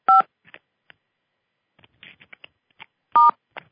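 Telephone keypad tones from star and 6 being pressed to unmute on a conference call: two short, loud dual-tone beeps about three seconds apart, with faint scattered clicks and noises between them.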